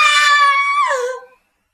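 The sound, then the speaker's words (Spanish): Women screaming in a dramatized castle scene: one long, loud, high-pitched scream whose pitch dips lower near the end before it cuts off, alone with no speech. “¿Qué son esos gritos? Son gritos de mujeres.”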